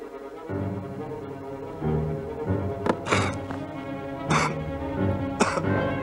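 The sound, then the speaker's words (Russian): A man choking in a film scene gives a few harsh, sudden coughing and gagging bursts over a steady low background tone. “Герой Александра Абдулова поперхнулся.”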